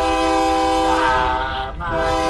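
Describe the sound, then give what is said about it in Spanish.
A departing train sound effect with a loud, sustained, chord-like train horn over a low rumbling of rail cars. The horn holds steady, then dips briefly near the end before carrying on. “¡Ah, ya se te fue el tren, se va el tren!”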